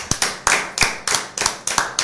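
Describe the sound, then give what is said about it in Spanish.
Group of young men applauding on request at the end of a prayer: a steady series of sharp, loud claps at a fairly regular pace, with no talk over them. “Un aplauso, muchachos.”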